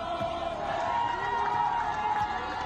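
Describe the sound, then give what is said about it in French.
A crowd cheers coup leaders in the streets of Libreville, Gabon, the morning after a military coup. Many voices roar and shout in a dense, sustained, loud wash that never lets up. “Ce matin, dans les rues de la capitale, Libreville, les putschistes sont acclamés.”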